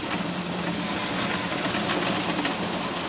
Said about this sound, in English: We go into a shelling shed where her walnuts go through several rounds in a cracking machine.